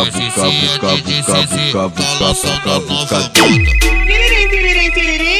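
A phone rings over a rhythmic song beat. The driving loop breaks into a quick falling swoop, then a loud, sustained warbling ringtone plays over deep bass.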